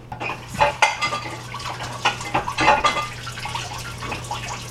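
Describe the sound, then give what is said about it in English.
Plates and dishes clinking and clattering as someone rummages through them in a kitchen, looking for a rimless plate to hold fresh pancakes; many light ceramic knocks come in an irregular, fairly quiet stream. “When I take the pancakes out of the pancake maker, I need a plate to set them on. That's what I'm searching for”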